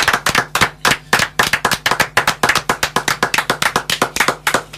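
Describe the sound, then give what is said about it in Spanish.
Rhythmic clapping at an event presenting a book and songs: many sharp, loud claps in a steady, even beat, a few per second, running through the whole stretch with no talk over it. “Estos aplausos son para ustedes.”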